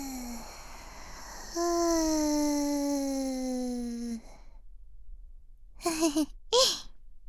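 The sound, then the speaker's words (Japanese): A deep exhale during a guided relaxation breathing exercise, voiced as a long sighing tone that slowly falls in pitch, followed after a pause by two short breathy puffs. “吸って、吐き出す。”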